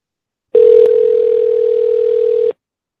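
Telephone dial tone on a call that fails to get through: one flat, unbroken tone that starts abruptly, holds for about two seconds with a faint click near its start, then cuts off cleanly.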